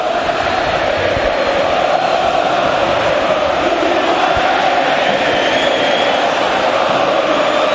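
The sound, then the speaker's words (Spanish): More than 20,000 Boca Juniors football fans chant in a stadium in Rosario, a dense, continuous roar of massed voices held at a steady, loud level throughout. “Quiero que escuches al público de Boca, que son más de 20.000 y están en Rosario. Escúchalo.”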